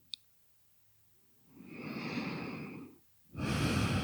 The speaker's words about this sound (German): Nur ein paar tiefere Atemzüge in den unteren Bauch.